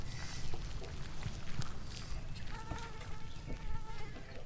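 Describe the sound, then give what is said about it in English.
Insect-like buzzing from a video game, a dense crackling hiss much like sizzling bacon, with thin steady whining tones that drift in and out at an even loudness. “Oh, that sounds like... Like bacon and eggs being cooked for breakfast. That sounds like insects scattered.”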